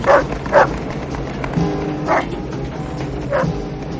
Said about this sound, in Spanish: Al pasar junto a una finca, un chucho blanco les persigue. ¿Es ese el perro feroz amarillo del que me habló?